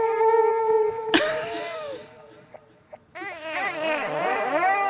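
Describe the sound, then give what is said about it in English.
An infant cries in a few strained, high wails that rise and fall. The crying drops away into a quiet gap with faint clicks, then resumes as loud, wavering sobs. “She stopped, she's crying, crying, crying now. Crying now.”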